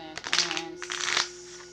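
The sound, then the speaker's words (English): A deck of playing cards is shuffled in a quick riffle of dense papery crackling that lasts about a second, over a faint steady hum. “I'm going to practice this weekend, so just shuffling the cards, because I do really got to get those other ones loosened up.”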